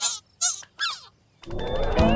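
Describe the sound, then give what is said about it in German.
Hungry geese honk three times in short, nasal bursts with gaps between them, then a louder, noisier stretch of overlapping sound follows. “Die Gänse waren nach ihrer langen Reise nämlich ziemlich hungrig.”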